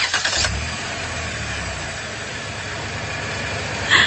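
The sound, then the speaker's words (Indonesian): A car engine starts up and settles into idling: a brief rough cranking burst opens, then a steady low rumble holds at an even level to the end. “Tapi ketika aku menyalakan mobilku,”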